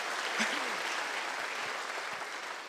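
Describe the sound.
Congregation clapping hands in praise during a Sunday church worship service: dense, steady applause that holds at an even level for the whole stretch.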